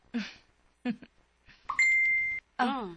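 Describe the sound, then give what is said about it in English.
A cellphone text message alert, a single steady high-pitched beep lasting about half a second, set between short bursts of people talking. “Ingog imo cellphone. Text man ni?”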